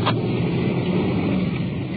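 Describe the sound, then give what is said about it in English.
A black police detective sedan hums along with a steady, even drone of engine and road rumble from inside the car, unchanging in level and with no voices. “You're riding in a detective unit, black sedan, radio buried in the glove compartment. Looks like any other car on the road.”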